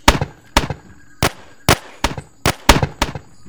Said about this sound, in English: Fire on them, then. Hold your positions. Fire!